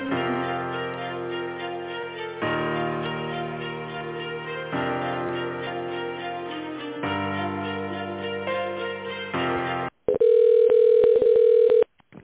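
Hold music plays over a narrow telephone line during a call transfer, then cuts to a steady, loud ringing tone near the end.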